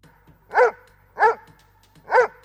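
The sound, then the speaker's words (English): A guard dog barks three times, each bark short, loud and sharp, evenly spaced with brief silences between and no other sounds. “was alerted by the creature's barking before Arihant could immobilize him. The angry guard unleashed the animal into the bushes”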